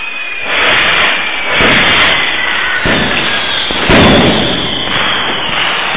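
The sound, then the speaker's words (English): Pyrotechnics go off for a wrestler's entrance at a wrestling event. Loud, roaring, hissing blasts form a continuous rush, and several fresh bursts hit on top of it, with no talk. “The pyro expires, leaving a huge cloud of smoke covering the entranceway”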